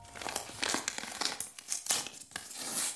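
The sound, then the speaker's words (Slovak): A pale blue paper envelope with a name on it is handled at a kitchen counter, giving a steady run of crisp crinkles and rustling crackles. Nobody talks. “Ešte, že som si všimol túto bledomodrú obálku s mojím menom na kuchynskej linke.”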